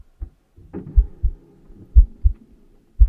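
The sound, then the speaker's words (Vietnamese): A thumping heartbeat sound effect, deep low paired thuds recurring about once a second in a slow, steady rhythm, with a faint low hum lingering between beats. “A Nùng còn mơ hồ nghe thấy cả nhịp tim của mình đập thình thịch ở trong lồng ngực”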